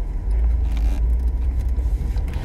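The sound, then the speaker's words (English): A car passing by gives a steady, low rumble that holds at an even level throughout, with no voices over it. “Why does that vehicle have to be right there?”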